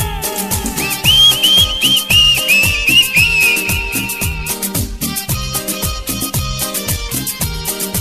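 A bright whistled melody rises over loud, rhythmic music in a DJ mix, warbling for a few seconds before fading out while the steady beat carries on.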